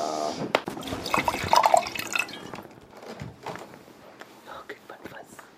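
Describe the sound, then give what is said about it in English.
Wine being poured into a glass makes a soft trickling, gurgling flow with small drips, while quiet voices murmur underneath. “That was the sound of some more wine being poured.”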